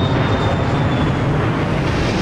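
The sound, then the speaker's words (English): A stealth bomber taking off, heard as a loud, continuous jet roar that stays steady throughout, with a faint high whine riding above it. “A stealth bomber takes off, joining two others already airborne.”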